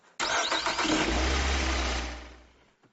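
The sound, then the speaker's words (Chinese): A car engine starts with a sharp cranking burst, then runs at a loud, steady roar before easing down and fading out. “开车”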